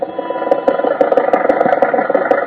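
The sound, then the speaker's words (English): A car engine running while the car is driven to a studio: a steady, loud mid-pitched drone overlaid with rapid irregular ticking pulses, with no voices. “At the moment, Rochester is driving Jack to the studio.”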